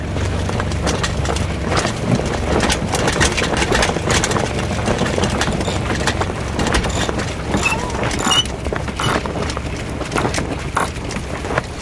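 Steady low drone of a sailboat's engine running as its revs are eased down before the sails go up, a continuous rumbling noise with no clear change in level throughout.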